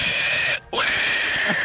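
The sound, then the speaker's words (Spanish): A sound effect of an animal's tail being stepped on: two harsh, shrill screeching bursts separated by a brief gap, the second opening with an upward sweep. “Con todo y efectos especiales. Así es, con todo y, con todo y pisada de cola.”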